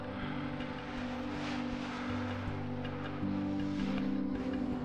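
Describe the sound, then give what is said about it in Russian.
Steady road traffic at a motorway interchange: a continuous broad wash of engine and tyre noise with low droning tones, holding an even level throughout with no single vehicle standing out. “Вид с коптера на автомобильную развязку.”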